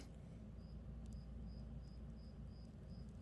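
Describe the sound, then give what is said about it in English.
Cricket chirping outside the room: a faint, regular series of about seven short, high-pitched chirps, evenly spaced over a steady low background hum. “That's not in my room, but it's outside my room. You can hear a cricket making sound right now.”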